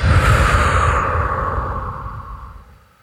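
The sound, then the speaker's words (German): A long, deep breath taken during a guided relaxation exercise. It is a broad, airy rush that is loud at first and then fades out over about three seconds. “Atme einmal tief ein und aus.”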